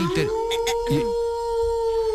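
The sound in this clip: A human voice imitates a wolf howl with a long, steady, tonal wail held for about two seconds. Brief voiced sounds break in near its start.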